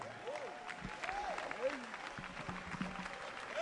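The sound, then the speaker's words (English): Audience applause welcoming a bishop at a church service: steady, dense clapping with voices calling out over it throughout. “Put your hands together and let's welcome Bishop Intefel.”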